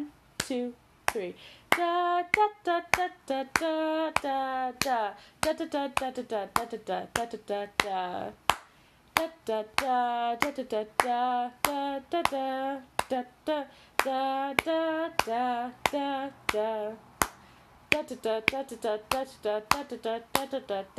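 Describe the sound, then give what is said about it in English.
Hands clapping a beat in 3/8 time, sharp regular claps running the whole way through while a voice talks over and between them. “So it goes something like that. If I'm clapping the beat, it goes”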